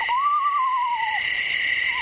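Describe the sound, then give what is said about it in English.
A screech owl calls after a successful hunt: one long, wavering whistled note that slowly falls in pitch, with the start of another call at the end, over a steady high buzzing chorus. “It is the call of a screech owl that has been successful in the hunt.”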